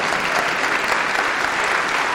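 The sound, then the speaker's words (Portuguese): A church audience applauds in praise of the Lord, a dense, steady patter of many hands clapping at an even loudness throughout the short stretch. “Vamos aplaudir mais ao nome do Senhor.”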